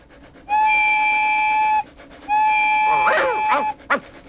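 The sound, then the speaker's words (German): A locomotive whistle gives two long, steady, high-pitched blasts, the second overlapped near its end by brief warbling chirps. “Ist das etwa meine Lok?”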